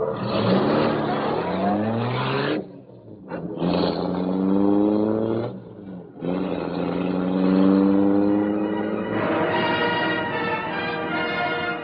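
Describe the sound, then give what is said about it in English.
The Black Beauty, a gleaming car, roars to life and speeds off. Its engine revs loudly in repeated rising surges separated by brief lulls, then settles into a sustained high roar. “The great car roared into life. The section of the wall in front raised automatically, then closed as the gleaming Black Beauty sped into the night.”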